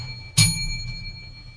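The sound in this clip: A bell sound effect: a single bright strike with a sharp attack, then a long, sustained ringing decay over a low background hum.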